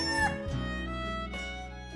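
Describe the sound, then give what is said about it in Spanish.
A rooster crows in the morning, giving a drawn-out, harmonic-rich call that holds steady for a couple of seconds, fairly loud and alone, with no talking. “Al día siguiente, el gallo cantó como de costumbre.”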